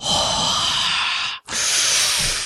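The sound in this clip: A voice imitates a forceful yoga-style exhale: two long, breathy, hissing bursts of air split by a brief pause, loud and rough.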